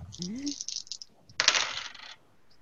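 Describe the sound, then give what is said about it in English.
Several dice rattle and clatter across a table during a tabletop role-playing game, four dice rolled at once. A few light clicks come first, then a dense, bright burst of rattling that stops abruptly. “Okay, I have got four dice, but I can't re-roll with no successes. You rolled four ones.”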